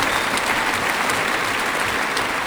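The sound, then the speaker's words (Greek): Enthusiastic audience applause after a classical concert performance: a thick, continuous wash of clapping from a large crowd, steady and loud throughout. “επιστρέφουν στη σκηνή μετά από αυτό το έφθερμο χειροκρότημα του κοινού”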